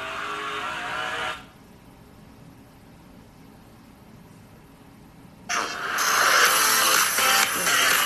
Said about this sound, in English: we're just gonna skip that and now watch Suarez and McDowell's running at Sonoma from the from Alex Bowman's bumper cam